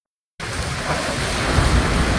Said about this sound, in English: That was the sound of gushing rain